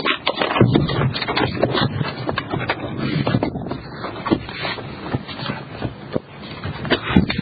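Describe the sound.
Paper slips being prepared and handled for a lucky draw at a committee meeting: continuous rustling and shuffling with scraping and many sharp crinkles, and no voices.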